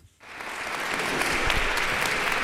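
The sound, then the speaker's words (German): Dozens of people waiting outside the Avignon courthouse applaud as Gisèle Pélicaud enters for her trial. After a brief quiet, the clapping swells quickly into a dense, steady applause. “Applaus für Gisèle Pélicaud, sobald sie das Gerichtsgebäude betritt.”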